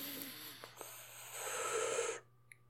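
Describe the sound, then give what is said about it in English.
Breath drawn in through the nose as part of a pursed-lip breathing exercise: a soft, airy hissing inhale of about a second that cuts off abruptly, preceded by a couple of faint small sounds. “So breathe in through your nose, and then you're going to purse your lips out.”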